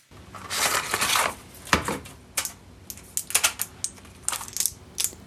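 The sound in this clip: A package of birth control pills is opened and the last blister sheet taken out. Crinkly rustling of packaging gives way to many sharp, faint clicks and crackles of foil and plastic, with no talking.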